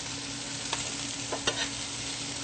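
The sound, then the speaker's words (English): Vegan chicken browning in a hot pan over fairly high heat gives off a soft, steady sizzle, broken by a few faint scrapes as it is stirred. “we're just going to add in the chicken, the vegan chicken, of course. And we want that to get browned up a little bit. I'm going to turn it on fairly high.”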